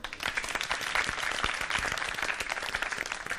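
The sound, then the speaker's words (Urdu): A studio audience at a televised quiz contest breaks into enthusiastic applause, dense continuous clapping from many hands that stays at an even level for the whole stretch. “زوردار تالیاں ہو جائیں.”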